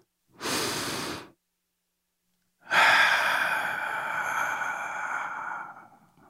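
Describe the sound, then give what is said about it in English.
One deep breath: a short, airy inhale, a brief silence, then a long, slow exhale that trails off gradually. No other sound is heard. “Now, if you're ready, let's take that deep breath.”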